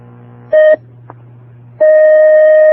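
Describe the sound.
Telephone line tones as a caller's call connects: a low steady hum, a brief louder beep, the hum again, then a long, loud, steady tone that runs to the end.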